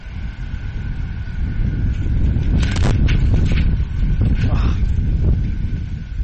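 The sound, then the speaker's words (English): Wind buffets the microphone at an amateur baseball game, making a loud, low rumbling roar with gusty surges and faint talk underneath. “Wind kicking up pretty good, as you can hear in our microphone.”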